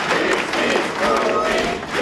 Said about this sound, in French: La famille de Louis s'avance en tête du cortège sous les applaudissements.